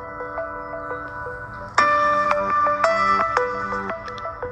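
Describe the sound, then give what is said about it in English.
A phone ringtone signals an incoming call: a bright electronic melody of short tonal notes that jumps louder partway through and keeps repeating its pattern to the end. “Well, somebody was just calling me and I declined. One of my Amish friends, that was what that sound was.”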